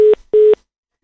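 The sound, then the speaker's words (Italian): A telephone tone heard when a call is put on hold: two short, loud, steady mid-pitched beeps separated by a brief gap, then silence. “Mi ha messo in attesa.”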